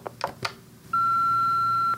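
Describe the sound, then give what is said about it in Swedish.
A voicemail beep that signals the caller to leave a message: one steady, sustained electronic tone lasting about a second and holding a single pitch. A few faint soft sounds come before it. “Hej, du har kommit till Kryptoteket. Vänligen lämna ett meddelande efter pipet.”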